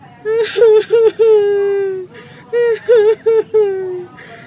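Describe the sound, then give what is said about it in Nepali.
A mother cries and sobs in two waves of several short, wavering whimpers, and each wave ends in a long drawn-out wail. The voice is high, clear and loud. “केही हुँदैन क्या आमा, नरुनु न।”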